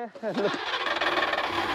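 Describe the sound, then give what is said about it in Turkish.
A small 34-horsepower engine with three coils and no distributor runs with a steady, dense mechanical drone after a brief voice at the start, holding level to the end. “Çalışıyor. Harika. Oldukça ilginç küçük bir motor değil mi?”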